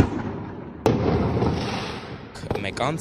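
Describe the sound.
Fireworks exploding at night, around half past one, on Saryan and Pushkin streets: two sharp, loud bangs about two seconds apart, the second followed by quick crackling pops, over a steady hiss of background noise.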